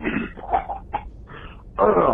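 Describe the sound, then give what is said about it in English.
A person clears their throat and coughs: a few short, rough bursts followed by a louder, harsh burst at the end. “That's not a COVID cough. I'm just clearing my throat.”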